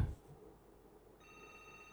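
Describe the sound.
A telephone rings with an incoming call, heard as a faint, steady electronic ringing tone that starts partway through after a quiet stretch.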